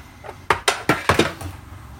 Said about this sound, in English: Then I'm going to open up the bowl that the turkey breast is in with the brine. It's in a covered bowl.